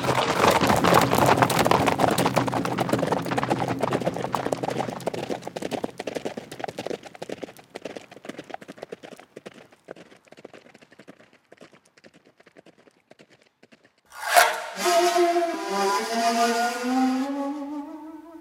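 Horses' hooves clip-clopping in a quick, steady rhythm, loud at first and then gradually fading away, before a sudden louder tonal sound takes over near the end.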